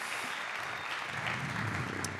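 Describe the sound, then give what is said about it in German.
An audience applauds at a stage event with a faint, steady wash of clapping that holds without a break and with no talking over it. “Ein Applaus für Moritz.”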